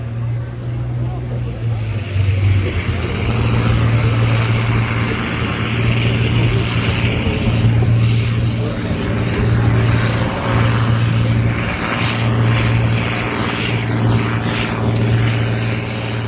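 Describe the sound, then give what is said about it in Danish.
A 1984 Fiat tractor roars at a farm-class tractor pulling competition outside Randers. The loud, continuous engine drone has a heavy low hum and holds steady for the whole stretch with only slight wavering. “Det her, det er lyden af en Fiat-traktor fra 1984, der hedder Lille Bille.”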